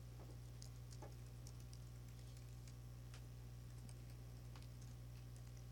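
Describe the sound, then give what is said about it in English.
Faint, irregular typing on a keyboard: scattered light clicks over a steady low hum, with no voices. “I guess we're just supposed to keep talking as you type up”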